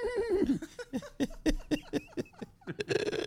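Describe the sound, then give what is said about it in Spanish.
A human voice imitates a mare's neigh with a rapid, quavering string of short vocal bursts, like a bleating whinny, ending in a louder, breathier burst. “¿Ahora te quieres oír una yegua ahora? A ver. El caballo le dice y ella le hace”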